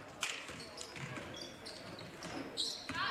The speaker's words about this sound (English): They dribble and lose the dribble way out front. Almost double dribble.